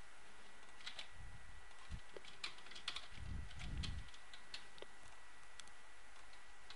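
Typing on a computer keyboard to fill in web page fields: a faint, irregular run of light key clicks with brief pauses, plus a few soft low thumps.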